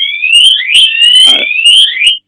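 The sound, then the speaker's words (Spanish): A loud electronic alarm going off, its shrill tone sweeping upward again and again in a fast, continuous warble that stays at full volume until a brief drop at the very end. “Algo hizo, una alarma hay ahí.”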